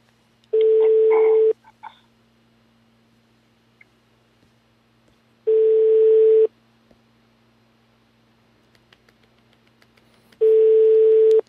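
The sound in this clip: A telephone rings in three long, evenly spaced bursts of a steady electronic tone, each about a second long and loud against near silence, with no voices between them.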